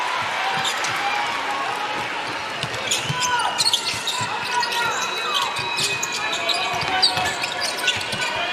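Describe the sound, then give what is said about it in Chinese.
A basketball dribbled repeatedly on the court during an international game involving Spain, many rhythmic thuds under a commentator's voice and broad arena noise. “夹击，但是博格斯运球有点多。”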